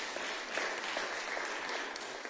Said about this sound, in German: da dürfen wir gleich mal klatschen